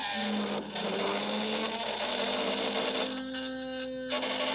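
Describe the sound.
A small electric motor turns under power beside a Hall effect transducer, giving a faint, steady whirring whine with a humming tone and a brief dip early on.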